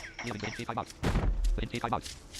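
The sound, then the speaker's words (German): Loud, harsh burst of unsuppressed pistol gunfire in a zombie video game, cutting in midway while people talk over it. “Alter, du musst echt mal einen Suppressor finden, deine Pistole.”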